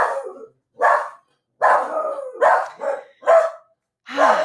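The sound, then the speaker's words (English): Dogs bark in a series of several rough barks and yelps, with short pauses between them. “You can hear the dogs off in the background right now. They're saying no.”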